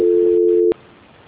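A telephone call-transfer tone sounds: a loud, steady, mid-pitched hum lasting under a second that cuts off abruptly, leaving faint line hiss.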